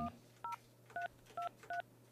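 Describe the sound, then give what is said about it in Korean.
Telephone keypad dialing tones from a landline being dialed, heard as a quick series of short, evenly pitched beeps with brief gaps between them, four of them plain after a clipped tone at the very start, over a low steady hum. “직접 한번 전화를 걸어보도록 하겠습니다”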